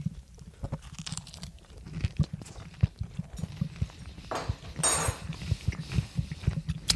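Someone bites into a dish with hollandaise sauce and chews it. Many rhythmic, crunchy and slightly wet chewing sounds are clear and close, with no talk over them.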